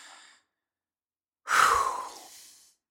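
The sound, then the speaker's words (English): A deep breath drawn in and released as one loud, breathy rush lasting about a second, alone, preceded by a brief faint breath sound. “As I take a deep breath now.”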